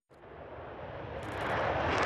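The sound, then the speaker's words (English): Jet roar of a US Air Force B-1 bomber taking off from Fairford: a broad rushing engine noise that starts abruptly and swells steadily louder over about two seconds, with no voices. “Off back to America, a US Air Force B-1 bomber departing Fairford yesterday.”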